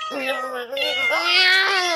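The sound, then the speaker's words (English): Meowing from an unneutered male cat, a loud, drawn-out wavering call that dips and breaks briefly, then climbs higher and harsher through its second half. “As you can hear, he's quite a handful. As a matter of fact, he sired several litters of cats or kittens”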